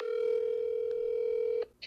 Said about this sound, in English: Steve just texted me and called me back. I'm going to call him back right now.